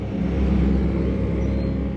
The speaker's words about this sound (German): In einem propellerbetriebenen Sumpfboot donnern die Amerikaner auf ihrer Grenzpatrouille an uns vorbei.